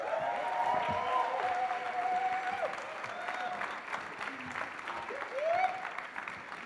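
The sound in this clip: Audience applause greets guests coming on stage, a dense, steady wash of clapping that fills the whole clip, with crowd noise and a few brief cheering calls rising above it.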